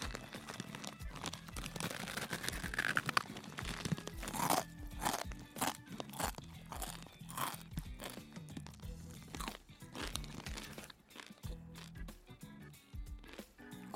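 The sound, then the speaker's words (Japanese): Crunching and chewing on a dry, curry-flavoured Chicken Ramen noodle snack: many sharp, brittle crunches in an uneven rhythm, loud and close throughout, with no talk. “あすごいカレーのいい香りするするこれ普通のチキンラーメンもカレー味あるのかな見たことないけどいただきます”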